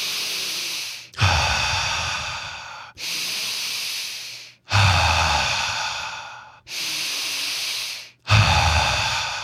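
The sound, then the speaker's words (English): Deep breaths drawn in through the nose and pushed out through the mouth, three full cycles with no pauses between them; each breath is a loud, airy rush, with no talking. “We breathe in through our nose, we breathe out through our mouth three times without any pauses. So it looks and feels just like this.”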